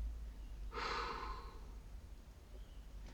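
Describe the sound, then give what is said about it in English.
A single breathy exhale as a held breath is released completely in a breathing exercise. It is short, soft and airy, lasts under a second and is heard alone against quiet background hiss. “release release your breath completely”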